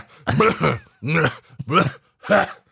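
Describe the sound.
Coughing and throat clearing: a few rough, voiced, groaning bursts separated by short pauses, with no talk.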